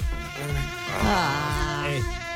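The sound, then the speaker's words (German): Mosquitoes and horseflies buzz at an open window on a hot summer day, making a continuous, whiny drone that wavers up and down in pitch and stays fairly loud throughout, with nothing else over it. “Mach mal das Fenster hier wieder zu. Mücken und Bremsen.”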